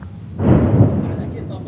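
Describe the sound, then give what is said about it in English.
A deep explosion booms from an Israeli airstrike near a heavily damaged village, a single heavy blast followed by a low rumbling decay that lingers for more than a second. “As we enter the village, there are more Israeli airstrikes nearby.”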